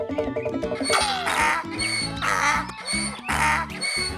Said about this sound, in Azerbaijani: Ağzı böyük, qulaqları uzun, özü də anqırmağa başladı.